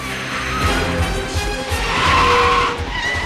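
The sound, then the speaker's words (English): SUV tires screeching as it rounds a corner in a car chase after clipping another car. A loud, sustained squeal rides over a rumbling engine and swells toward the end. “The SUV clips another car and screeches round a corner.”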